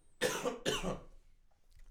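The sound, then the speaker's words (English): Two harsh coughs in quick succession as a person clears something caught in the throat, loud and alone, followed by a brief, faint quiet. “I've got something in my throat. Hold up.”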